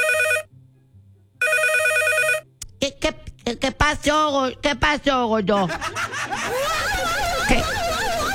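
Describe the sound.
A telephone rings as a husband calls his wife: two bursts of bright electronic ringing separated by a silent pause, after which voices talk.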